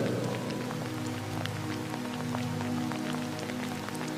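Steady rain falling on a surface makes a dense, continuous pattering hiss with scattered distinct drops. No voices are heard.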